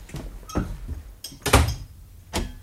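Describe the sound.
A door opening as someone comes into a house, heard as a few irregular thumps and knocks, with the loudest one in the middle, set against quiet background noise.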